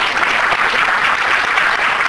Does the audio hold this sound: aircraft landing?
no